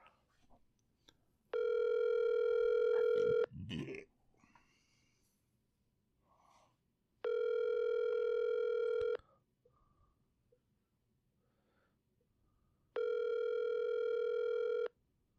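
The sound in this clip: Telephone ringback over speakerphone while calling a closed business: three long, steady buzzing tones separated by pauses of quiet, with a few faint breathing or shuffling noises between rings.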